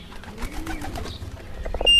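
Soft pigeon cooing at a homing pigeon loft in a garden, faint and low, with a few scattered noises that grow louder toward the end.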